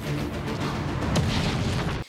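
An explosion of a power plant in a film scene: a loud, sustained rumbling blast of dense noise that roars for about two seconds and then cuts off abruptly.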